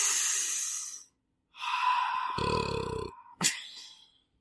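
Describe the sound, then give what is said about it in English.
A deep cleansing breath: a long airy inhale, a short pause, then a slow voiced sighing exhale with a low hum underneath, closed by a sharp click. “just really quick, deep cleansing breath”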